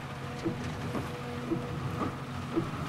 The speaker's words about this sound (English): it's coming down so hard. Yeah. I like rain.